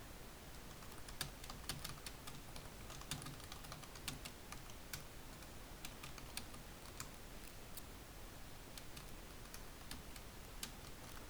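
Typing on a computer keyboard: many quick, irregular keystroke clicks patter along steadily at a low level, with no voices.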